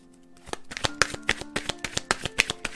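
Oracle cards are shuffled by hand before one is drawn, giving a rapid run of many crisp riffling snaps and soft flutters at a steady, fairly loud level, with no voices.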